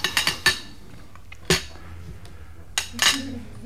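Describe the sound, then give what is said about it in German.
A plate being cleared from a dinner table: several sharp clinks of crockery and cutlery, a quick cluster at first and then a few spaced-out knocks, fairly loud and clear. “Der Teller von Mr. Miles, Sie können ihn abräumen.”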